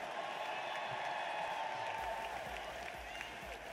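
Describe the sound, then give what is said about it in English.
Crowd applause for the Badgers team after a trophy presentation for their third straight Big Ten championship: a steady, even wash of clapping that holds at constant loudness throughout. “how about a round of applause for this Badgers team? What a fantastic finish here to claim their third straight Big Ten championship.”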